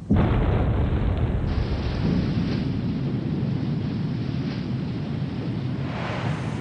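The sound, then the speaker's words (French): A dam is blown up during construction of the Panama Canal, producing a muffled explosion and a dull, dense rumble. The roar holds fairly steady for several seconds and eases only slightly toward the end. “Puis, on entendit un grondement sourd, un boum étouffé.”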